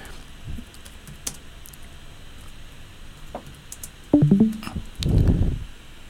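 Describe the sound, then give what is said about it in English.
Fingers type on a computer keyboard: many light, scattered key clicks, then two louder, heavier bursts of clatter near the end. “You just typed in the Elon Flat Earth.”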